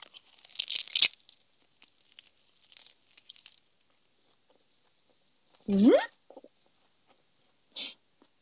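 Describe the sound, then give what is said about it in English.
An onigiri is unwrapped from its plastic wrapper. Crisp bursts of crinkling and tearing come first, then scattered rustles, then quiet broken by a brief vocal sound and a final short rustle. “I unwrapped the onigiri. I am going to eat it.”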